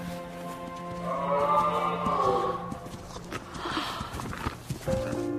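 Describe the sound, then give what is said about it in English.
A herd of reindeer walks down a street, hooves clopping in many irregular steps over a sustained tonal background. “A herd of reindeer walk down the street.”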